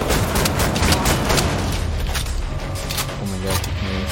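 Gunfire in a shooter video game battle against soldiers, a loud, dense barrage of rapid shots and booming impacts that continues without pause throughout.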